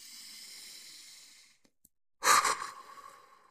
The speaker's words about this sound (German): Also setz dich jetzt hin, atme tief durch